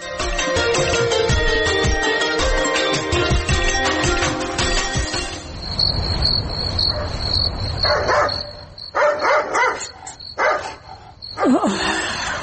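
Dogs barking at midnight: several sharp barks in short bursts over a steady, high chirping of crickets, following a louder, denser opening passage.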